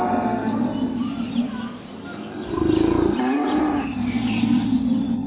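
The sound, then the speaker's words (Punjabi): Livestock lowing as the animals head toward Noah's ark: deep, drawn-out cattle moos that swell louder in the middle, over a continuous low rumbling background. “ਹੁਣ ਡੰਗਰ ਆ ਗਏ ਖੁਦਾ ਨੇ ਸਾਰੇ ਡੰਗਰਾਂ ਵਿੱਚੋਂ ਇੱਕ ਇੱਕ ਜੋੜਾ ਲਿਆ ਪਰ ਕੁਝ ਸੱਤ ਕਿਸਮਾਂ ਦੇ ਵੀ ਲਏ ਪਰਿੰਦੇ ਛੋਟੇ ਤੇ ਵੱਡੇ ਸਾਰੇ ਡੰਗਰ ਕਿਸ਼ਤੀ ਵੱਲ ਟੁਰ ਪਏ”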